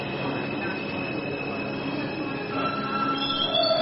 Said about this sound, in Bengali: আধ ঘন্টার মধ্যেই ট্রেন ঢুকল ঝাড় সুদুকা স্টেশনে।